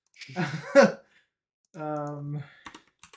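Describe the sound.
Keyboard typing as someone jots a note down: a few faint, quick clicks near the end, following a stretch of voiced murmuring and brief talk.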